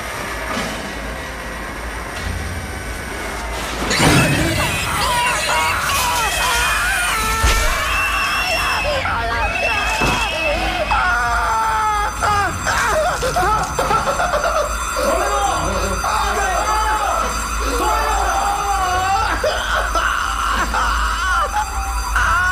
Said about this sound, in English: Okay, it's a scary scene. I didn't warn you beforehand, sorry about that. For this scene, behind the protagonist's scream,